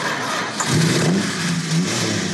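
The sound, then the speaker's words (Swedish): A Plymouth Fury car engine revs with a loud, rough mid-range roar over steady engine noise. Its pitch climbs in two short rising surges. “det här är en Plymouth Fury av samma typ och samma årsmodell”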